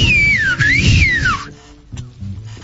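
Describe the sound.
A person whistles a loud, piercing stadium-style whistle: one sustained, wavering high tone that dips, rises again, then slides down before cutting off after about a second and a half, leaving near quiet.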